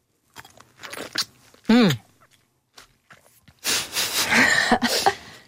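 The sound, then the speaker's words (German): A crunchy bite into a juicy plum is followed by wet, smacking chewing, with a few brief vocal sounds in between. “Jetzt beiße ich mal hier in diese Pflaume rein.”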